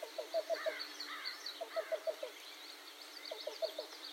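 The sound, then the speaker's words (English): Cuckoo calling in a bog, captured on an iPhone: three short bursts of evenly spaced, hollow low notes separated by pauses, with fainter, higher chirps from other birds between them. “suddenly I was hearing a cuckoo in the background. I got a few photos and recorded him with my iPhone.”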